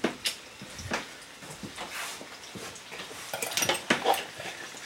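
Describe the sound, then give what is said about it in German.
A spoon stirs pudding powder in a pot on the stove, giving irregular scrapes and light metallic clinks against the pot, quiet and uneven, with a brief busier cluster of scraping toward the end. “So, das Puddingpulver setzt sich wieder ab. Das müssen wir nochmal aufrühren.”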